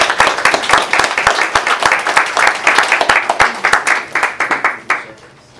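Audience applause for school volunteers at a Madison Plains schools event: many hands clap in a fast, loud, steady patter that fades out near the end.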